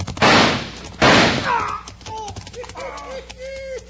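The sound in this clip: Two loud gunshots crack out in a western shootout as a pistol is shot out of a man's hand. Fainter voices and other sounds follow the shots.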